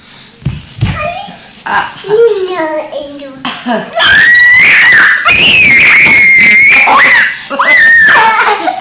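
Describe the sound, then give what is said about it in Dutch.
A child screams in long, piercing, high-pitched shrieks, one held for about three seconds and another following shortly after, preceded by shorter childish vocal sounds. “En je hoeft er niet aan bij te gillen hoor, hé.”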